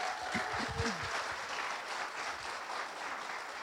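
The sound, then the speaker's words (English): Applause from an audience at a Sunday church service, welcoming first-time guests: a steady, fairly faint wash of many hands clapping, with no single claps standing out. “would you put your hands together and welcome our first-time guests that are here.”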